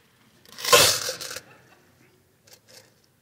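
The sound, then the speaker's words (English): Coins drop into a church offering as a bright, jingling clatter lasting about a second, followed by two faint clinks and then quiet. No one speaks. “You can't hear dollars fall, so I'm going to try to make sure that I've got just coins so that you hear how much I give.”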